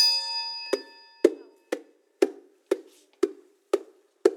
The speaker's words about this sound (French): Vous êtes prié de marcher lorsque vous entendez des pas précédés d'un coup de triangle, comme cela.